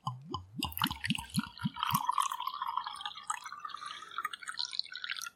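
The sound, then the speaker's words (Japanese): Rosé wine made solely from Cabernet Sauvignon is poured from a bottle, opening with a rapid run of hollow glugs that give way to a soft, continuous splashing trickle into the glass. “このロゼワインは黒ぶどうの カベルネソービニオンのみを使用してセニエ法で作られています。では注いでみましょう。”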